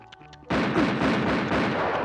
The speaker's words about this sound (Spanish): Si no sales en 10 segundos, te voy a disparar.